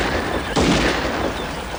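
A single gunshot-like boom in the woods cracks once over a constant hiss and quickly fades.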